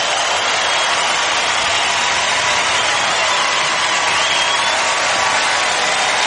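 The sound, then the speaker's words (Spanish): Loud, sustained applause from an audience, a dense and unbroken roar of clapping that holds level for about six seconds with no single claps standing out. “fuerte aplauso a tu rey”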